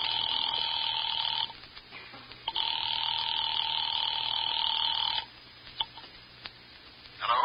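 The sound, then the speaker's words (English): A telephone ringing on a line just dialed from a military police office in Chicago: two long, steady electronic rings separated by a pause, followed by a few sharp clicks. “on duty in that office, had just dialed the telephone number.”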